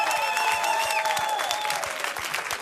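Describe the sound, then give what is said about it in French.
Applause as an ovation for a colleague: dense, steady clapping from many hands throughout, loud and even, with no talk over it. “Mesdames et messieurs, une ovation pour monsieur François Porcheron.”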